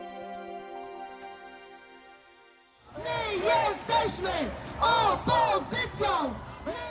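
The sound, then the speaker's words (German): Crowd of Polish women chanting slogans at a street protest against the ruling party's conservative view of society, loud rhythmic shouted bursts repeating steadily, following a sustained harmonic tone at the start. “Wir sind die Opposition, rufen polnische Frauen. Sie demonstrieren gegen das von der polnischen Regierungspartei PiS gepflegte konservative Gesellschaftsbild.”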